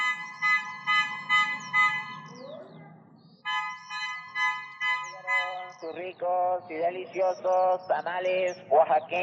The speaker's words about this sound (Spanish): Por la tarde suena la bocina y yo ya sé que se viene el chavo del pan dulce en su bicicleta